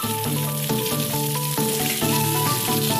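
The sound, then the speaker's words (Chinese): Chunks of winter melon, zucchini and purple potato fry in hot rapeseed oil, giving a loud, unbroken crackling sizzle with faint music running beneath it. “当地特色的米冬瓜、西葫芦、紫皮土豆切块后放入菜籽油中过油，炸出水分后便可捞出。”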